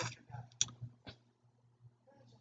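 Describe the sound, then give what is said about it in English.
Computer mouse clicks as someone clicks a link to test a lead capture page: a few sharp, short clicks spaced apart over a quiet background. “what happens if I click on this does it still work does it still go to my”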